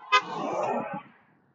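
A car horn honks at a pedestrian on a narrow road: one sharp, short honk, fairly faint, with a brief tonal tail.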